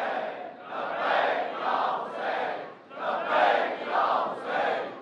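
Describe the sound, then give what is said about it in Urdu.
A crowd chants the religious slogan Labbaik Ya Hussain in unison, a loud rhythmic call repeated phrase after phrase with brief dips between the shouts. “ایک نعرہ لگائیے، لبیک یا حسین،”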